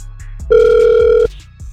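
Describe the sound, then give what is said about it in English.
Ringback tone of a telephone ringing on an outgoing call: a single steady buzzing tone that lasts under a second, set against faint line noise. “We're going to try and call him right now.”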